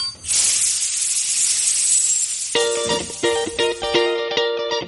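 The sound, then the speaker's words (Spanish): Steam locomotive sound effect: a long, loud hiss of escaping steam, followed by a run of short, rhythmic tonal bursts that continue to the end. “La locomotora sigue avanzando.”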